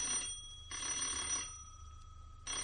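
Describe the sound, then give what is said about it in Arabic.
A telephone rings in a home: a bright, buzzing bell sounding in a few repeated bursts separated by short pauses, fairly faint and with no voices. “ردي على التليفون”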